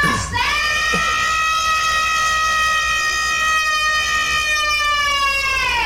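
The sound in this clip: A siren wails with a strong harmonic tone that sweeps up at the start, then holds a loud, steady high pitch for several seconds.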